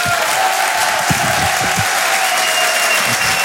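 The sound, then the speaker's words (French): Dense, continuous applause from the audience at a live stand-up comedy show, a steady wash of clapping with some crowd noise, loud throughout. “Je vous demande de faire un maximum de bruit et de l'encourager.”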